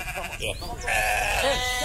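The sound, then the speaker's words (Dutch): Sheep loose in a town hall garden bleat with wavering, nasal calls. A couple of short bleats are followed by one long, loud, drawn-out bleat. “Het zijn niet een groep geiten die vanochtend problemen veroorzaken, maar het zijn de schapen.”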